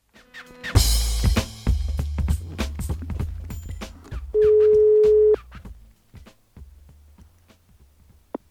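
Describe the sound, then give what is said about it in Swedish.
Telephone ringback tone while a call is placed: a single steady, one-second ring stands out among clicks, taps and a rustling background. “Så jag tänkte att vi skulle ringa upp Joel Marklund och prata lite grann med honom om den här bilden.”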